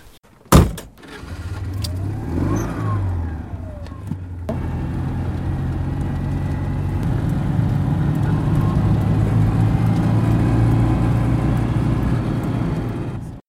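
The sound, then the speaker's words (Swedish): A car drives off. A sharp thump comes first, then an engine runs with tones sweeping up and down, and a steady, loud rumbling builds and holds to the end, with no voices. “Ska vi ta en tur? Absolut. Om du känner för det så gör vi det.”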